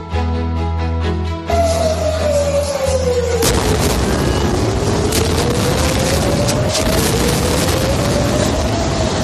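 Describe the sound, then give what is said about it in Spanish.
Bombing attacks in the Middle East give a loud, continuous heavy roar that swells in sharply near the start, with a steady gliding tone running through the dense rumble and no voices. “Sexto día de ataques en Oriente Próximo y el sonido sigue siendo pues este que estás escuchando.”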